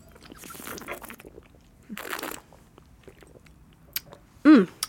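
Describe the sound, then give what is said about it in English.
People sip and slurp wine at a tasting, with a few wet, airy bursts of slurping and a louder slurp near the end. “Calling that a day, though. Done and done. Let's taste this wine.”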